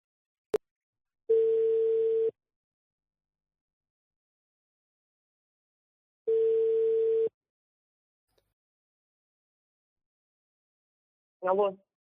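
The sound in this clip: Ringback tone on an outgoing phone call, with a sharp click, then two long, steady, identical tones about five seconds apart separated by silence, before a voice answers at the end.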